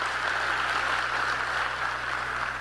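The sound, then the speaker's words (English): Audience applause forms a smooth, continuous hiss of clapping that stays level for almost three seconds, with a low steady hum underneath. “Clap it up for that.”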